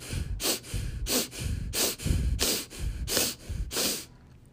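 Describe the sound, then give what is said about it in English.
Forceful power breaths snapped sharply through the nose in a rapid, rhythmic series of loud, hissing bursts, with no talk. “a power breath is a breath done only through your nose, and it's a real snap. So it's power. It's a draw”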